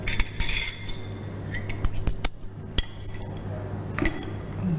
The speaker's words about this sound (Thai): ได้ก็ต้องนะเอาจานเนี่ยมาวางรวมกัน ครับเดี๋ยวผมรวมเศษอาหารนะครับ